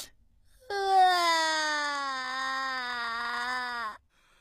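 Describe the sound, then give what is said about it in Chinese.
A high, sustained crying wail from a person who is overcome after a hard-won victory, a single drawn-out cry whose pitch sinks slightly before it stops abruptly, heard alone. “我知道你不容易，先别哭了。”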